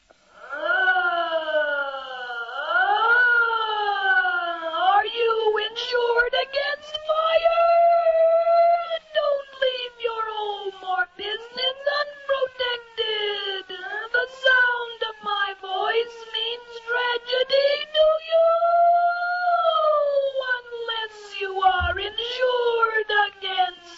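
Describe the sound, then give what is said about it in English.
A fire engine siren voiced through a Sonovox talking device for a fire insurance commercial, with wailing, speech-like tones that sweep up and down in pitch, loud and continuous for about 24 seconds. “the sound of a siren on a fire engine might be used to identify the fire insurance, and the commercial would sound something like this”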